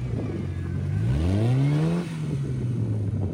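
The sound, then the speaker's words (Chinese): A vintage car revs up a muddy slope where it gets stuck halfway: a loud engine note climbs in pitch, then holds and eases slightly as the revving continues, with no voices. “开着复古老爷车飙上泥泞斜坡，但到一半却被卡住，动弹不得。”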